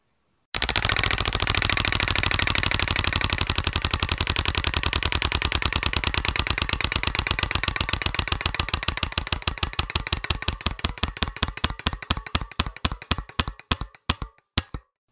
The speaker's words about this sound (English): All right, spinning the wheel.